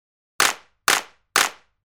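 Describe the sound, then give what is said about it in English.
Hands clap three times to a clap-your-hands routine, each clap crisp and sharp with a short decay, evenly spaced about half a second apart against silence. “Clap your hands.”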